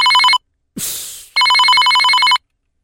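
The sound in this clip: A trilling electronic telephone ring sounds as a man calls his wife late at night. A clipped ring at the start is followed by one full, loud ring, with a brief rushing noise between them.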